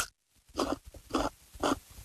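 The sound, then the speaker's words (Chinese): Crisp crunching as a sweet radish is bitten and chewed, three distinct crackling bursts spaced about half a second apart, with no talk. “又脆又甜，萝卜的味儿特别的浓，很好吃，我再吃一口吧。”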